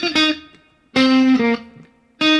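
Electric guitar played on the neck pickup of a Telecaster, treated with tremolo, reverb and compression: three bright, sustained bursts of chiming notes with rich harmonics, separated by short gaps as each phrase rings out and decays.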